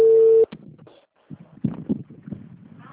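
A telephone ringback tone on a call waiting to be answered holds one loud, steady note for about half a second, then cuts off. Quieter, muffled rustling and clatter follow.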